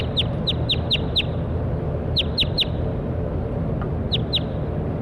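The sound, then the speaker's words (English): Sharp, high, downward-sweeping bird chirps come in three bursts of five, three and two calls over a steady low background hum. “Stop. That was bird 7-1.”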